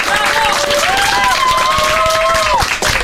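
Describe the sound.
Audience applause at a singing event where a young vocalist is honored: steady, dense clapping throughout, with a voice speaking over it.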